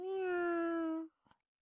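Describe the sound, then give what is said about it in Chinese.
A human voice imitates a cat's meow in one drawn-out, steady, fairly high tone that stops abruptly, followed by a faint short click. “然后啊他又学了一声猫叫”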